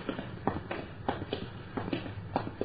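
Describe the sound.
Footsteps of people walking down a row of houses: many soft, fairly regular steps tapping at a steady pace over a low background hum, with no talk.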